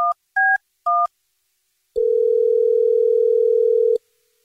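Three loud touch-tone dialing beeps, then a single long, steady ringback tone of an outgoing phone call, clean and alone against silence.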